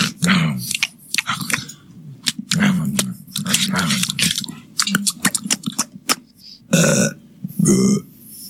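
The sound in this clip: People eat food with peanut butter on it, making loud, irregular chewing, smacking and wet mouth noises mixed with burp-like bursts.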